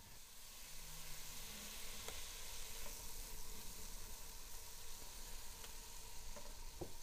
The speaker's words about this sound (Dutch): Nou, dus we hebben zwarte peper, chilivlokken en lekker veel Himalaya zout. En we gaan hem nu aanbraden